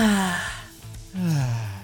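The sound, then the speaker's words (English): A deep, audible breath drawn out with a voiced, sighing tone that swells and falls back, then a second breath rises again. It is fairly loud, with no talk over it. “Sometimes it feels good to just take a deep breath.”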